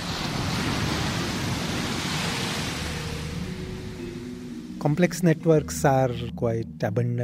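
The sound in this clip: Large monster waves in open water surge with a broad, rumbling roar that swells and eases gently, then a voice begins talking over the water noise near the end.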